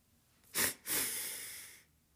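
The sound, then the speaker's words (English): Breathing in a demonstration of a physiological sigh: a quick, sharp breath, then after a brief gap a longer, sustained breath. Both are loud and clear against near silence. “So what is a physiological sigh, right? I'm going to do a demonstration for you. So we're going to have two rapid inhale”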